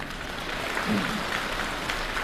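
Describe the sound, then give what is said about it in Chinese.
Thin, scattered applause from an audience at a crosstalk show in the Beijing Exhibition Theater: a soft, steady patter of clapping lasting a couple of seconds, with no distinct voices. “谢谢您这么稀稀拉拉的掌声。”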